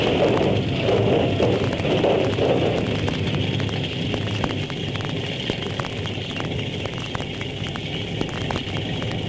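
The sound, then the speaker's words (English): A radio drama sound effect of a building fire burning gives a steady, broad roar scattered with many small crackles and pops, loud at first and then a little softer. “Uh, it's lucky Chief that fire didn't get down to the first floor. What caused it, you know? Somebody was playing with matches.”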